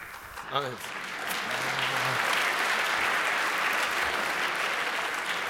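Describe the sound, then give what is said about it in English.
Audience applause at a talk: a brief voice at the start, then dense clapping swells in and holds steady and loud to the end. “I'll leave the stage next time someone starts to clap.”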